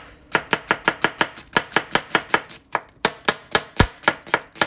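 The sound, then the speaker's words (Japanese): Knife chopping onions on a board for curry: many quick, crisp, evenly spaced chops in a steady rhythm with one brief pause midway, loud and alone without talk. “もう玉ねぎをね切る時間になって”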